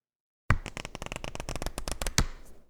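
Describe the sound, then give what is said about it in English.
Thumbing through a deck of cards: a rapid, dense run of many crisp papery flicks lasting about two seconds, with a louder snap near the start and another near the end. “Thumbing through a deck of cards.”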